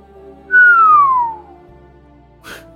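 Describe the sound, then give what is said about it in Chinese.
A person whistles one clear note that slides smoothly downward in pitch for about a second, then falls silent, with a short soft noise near the end. “他忍不住吹了个口哨，调侃着笑了笑。”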